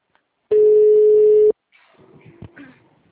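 A telephone tone for an incoming call sounds as a single steady, mid-pitched ring lasting about a second, then stops and gives way to faint scattered noise.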